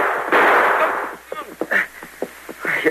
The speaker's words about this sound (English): You shot the guns right out of my hands.